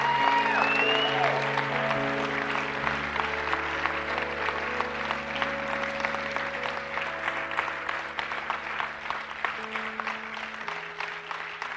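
A church audience applauds in steady, dense clapping that runs throughout, over sustained keyboard chords that hold and shift beneath it.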